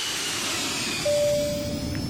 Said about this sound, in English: Welcome on board, everybody. We're currently cruising at 12,500 feet